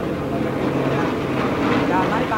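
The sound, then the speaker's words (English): Airplanes fly overhead during a war, making a dense, steady roaring drone. It holds at a constant level and swells slightly near the end. “The planes again. Are they American or Vietnamese? I don't know whose they are. Just airplanes.”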